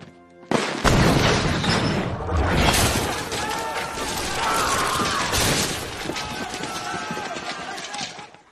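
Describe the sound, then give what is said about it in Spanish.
Cannon fire in a battle at the Alamo: a sudden loud blast, then several seconds of dense rumbling, crackling and clattering noise that slowly thins out. “Disparen el cañón. ¡Fuego!”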